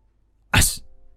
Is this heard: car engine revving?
no

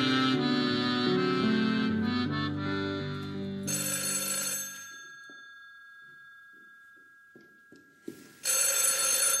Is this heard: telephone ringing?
yes

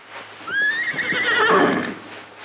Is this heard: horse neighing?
yes

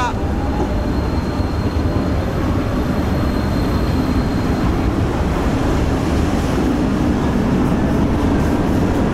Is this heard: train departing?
yes

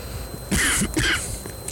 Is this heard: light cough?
yes

